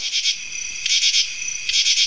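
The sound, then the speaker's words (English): A cicada buzzes on a sunny summer day: loud, high, rasping pulses swell in three strong bursts, with a steady droning hum between them. “And this is the sound of a cicada. A cicada makes a loud buzzing sound on sunny summer days.”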